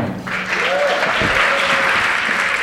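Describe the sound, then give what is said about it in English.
An audience applauds to welcome a guest at a live show in New York, with dense, loud, steady clapping from many hands that carries through the whole stretch without a break. “Please give a huge round of applause and an NYC Podcast welcome to the wonderful Lisa”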